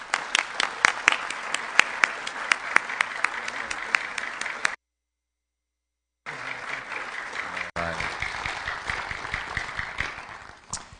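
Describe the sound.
Applause welcoming a guest speaker at Appalachian Bible College. The dense, sustained clapping cuts out briefly, then resumes and carries on at the same level.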